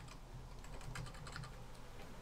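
Keys clack on a computer keyboard in a quick, uneven run of soft, faint keystrokes over a steady low hum.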